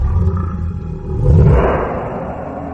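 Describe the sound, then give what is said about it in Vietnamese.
A deep, rumbling roar from a fictional red-eyed snow lion beast: a low growl that surges loudly just past the midpoint, then holds as a broad, sustained roar to the end. “Hồng đồng tuyết sư thú gầm lên làm người ta phải run sợ”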